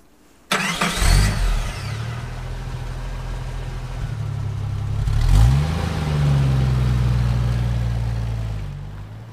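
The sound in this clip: A car engine starts abruptly, then settles into a steady mid-pitched rumble with a brief rev partway through as the car drives off.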